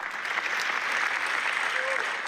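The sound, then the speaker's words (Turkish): A standing ovation for a documentary at its premiere screening at a film festival: faint, dense, steady clapping continues throughout without a break. “Naza adlı belgesel, Venedik Film Festivali'ndeki ilk gösteriminde 25 dakika boyunca ayakta alkışlandı.”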